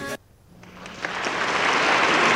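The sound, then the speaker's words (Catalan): Applause from a crowd that starts softly after a short burst and swells steadily into loud, dense clapping that keeps building to the end, with no voices on top. “Tinc aplaudiments. Aplaudiments. Vinga, dale.”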